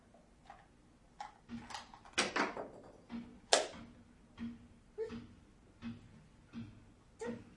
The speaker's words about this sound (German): Da klopft jemand. Ne? Klopf, klopf, klopf.